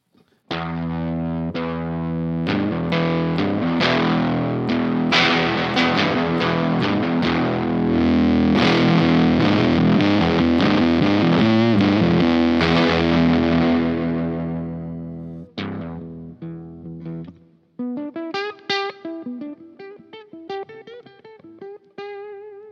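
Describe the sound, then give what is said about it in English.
A 1970s Shaftesbury Duo Fuzz distortion pedal drives an electric guitar, producing thick, buzzing, heavily saturated chords that sustain loudly for about fifteen seconds before giving way to thinner, quieter picked notes with a rasping edge. “So I've got like an old, this is an old 70s thing called a duo fuzz. Anybody heard of a Shaftesbury duo fuzz or anything like that? Well, this is the sound of it anyway.”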